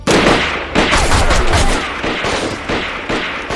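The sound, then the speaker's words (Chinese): Loud bursts of gunfire during a battle with attacking troops, dense overlapping volleys rather than single shots, surging in several waves of intensity with no voices heard. “别开枪，自己人。 停停，别开枪，都别开枪，自己人。”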